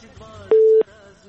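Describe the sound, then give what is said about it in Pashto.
A telephone busy tone sounds once on a phone line after a call-in connection is cut off. It is a single steady mid-pitched beep lasting about a third of a second, with faint background noise around it. “له بده مرغه چې د همدرد صاحب اړیکه پرې شوله”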